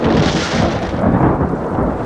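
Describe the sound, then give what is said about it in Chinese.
Dry thunder rolls with no rain falling, a loud, deep and continuous rumble that fills the whole two seconds without voices. “没有啊，干打雷不下雨，都好几次这样了。”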